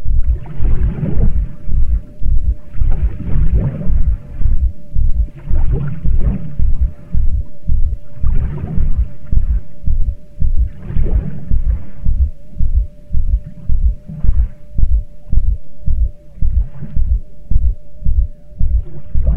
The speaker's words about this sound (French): En marchant jusqu'au lac, vous entendez battre votre pouls dans votre gorge